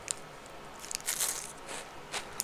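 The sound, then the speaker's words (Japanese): Faint crunching as someone bites into and chews a Rumando crispy crepe cookie, a few soft, crisp crackles over low background hiss. “分かってるけど食べてるこのねなんだっけこれルマンドルマンド美味しいよね”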